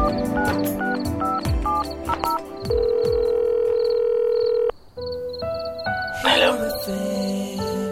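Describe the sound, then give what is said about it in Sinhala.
A landline telephone being dialed: a steady held tone, then a series of short, stepped tones of different pitch, with a brief burst of noise near the end. “ඊට පස්සේ කාමරේ දොරත් ඇහුවා. ඒ කරලා විසල්ගේ number එක dial කරා.”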